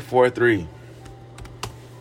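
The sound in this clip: Typing on a computer keyboard: a few faint, sharp key clicks scattered through the second half, after a brief tonal sound at the start.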